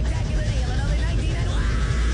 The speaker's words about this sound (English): This is the sound of commercials being run over by a train.